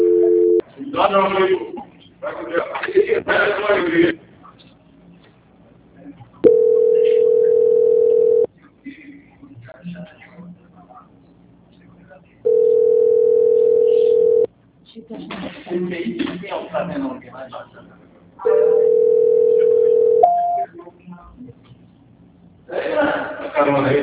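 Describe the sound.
Telephone tones sound while a call is being transferred: three long, steady, mid-pitched beeps of about two seconds each, evenly spaced, with voices speaking in the gaps between them.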